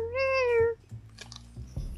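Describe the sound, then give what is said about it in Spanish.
A cat meowing from up in a tree gives one clear, drawn-out high meow that tails off slightly, followed by near quiet with faint low rustling. “¡Miau! ¡Miau! ¡Oh! ¡Viene del árbol!”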